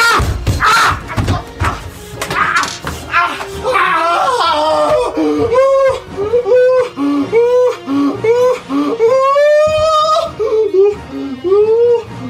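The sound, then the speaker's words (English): A gamer wails and screams in pain after setting his crotch on fire, with strained, sobbing cries rising and breaking over and over, loud and continuous, while game music plays faintly underneath. “what does this sound like when a South Korean gamer sets his crotch on fire? It sounds like this.”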